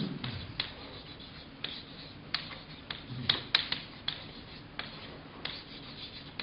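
Scratchy strokes of a word being written on a board during a lesson: a run of short rubbing scrapes with a few sharper ticks, fairly faint and steady, with no talk over them.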